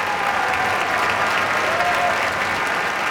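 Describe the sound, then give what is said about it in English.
Enthusiastic concert audience applause fills the Koussevitzky Music Shed at Tanglewood after a Boston Symphony Orchestra performance, a dense, steady wash of clapping that holds at an even level throughout. “Some very enthusiastic reception from this audience here in the Kuzovitsky Music Shed.”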